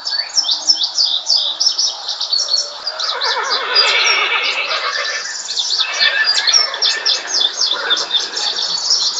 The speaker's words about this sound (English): They look like old war horses. They have some scars of healing and that kind of thing. But they're still plenty healthy enough to pull the wagon.